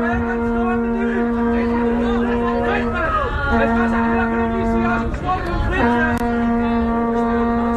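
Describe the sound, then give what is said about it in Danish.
A man shouts a burger order at McDonald's, nearly drowned out by a loud, steady, low horn that blares in three long blasts with brief breaks between them, while his voice wavers underneath. “Hvor man kan høre, der er en mand, der råber, det er også det, du beskriver her, råber en bestilling ind til McDonald's for at få en burger. Ja. Og så lyder det, som om man bliver overdøvet af et eller andet botthorn.”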